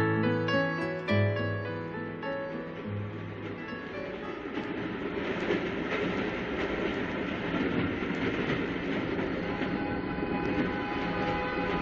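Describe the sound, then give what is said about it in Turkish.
An old locomotive whistle gives a brief harmonic tone at the start. The steady rumbling clatter of a moving train then carries on alone until the end. “Eski lokomotiflerin düdüğüne bayılırdım. Şimdikilerde o tat yok.”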